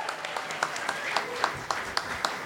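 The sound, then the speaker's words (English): Audience applause at the opening of a live comedy show, sharp claps popping out in a loose, fairly regular pattern over a soft wash of crowd noise. “Let's give this person a nice hand.”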